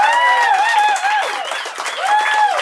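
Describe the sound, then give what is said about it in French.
Audience applause for a live comedy show: a thick wash of clapping with some cheering, loud throughout, under a prominent raised voice. “J'aimerais ça une grosse main d'applaudissements pour le show de ce soir.”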